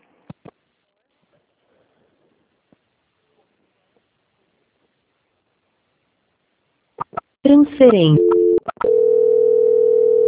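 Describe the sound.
Telephone tones sound as a call is transferred: a few faint clicks in near silence, then a short run of changing beeps, then a steady, unbroken tone that holds to the end.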